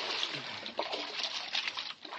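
Paddle splashing through water as it is pulled in hard strokes, giving a continuous wash of sloshing and trickling with a few stronger splashes standing out.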